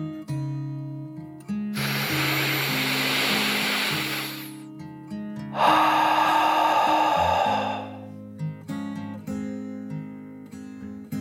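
A deep, slow breath in and then out, taken while tucked under a warm blanket: two long, airy whooshes of about two seconds each, over soft, gentle music with sustained tones.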